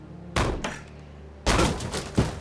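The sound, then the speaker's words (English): A door is kicked in at the entrance of a summer kitchen, held only by a weak metal latch. A few loud, heavy thuds land in two bursts, with a sharp knock near the end. “Go ahead and kick in the door.”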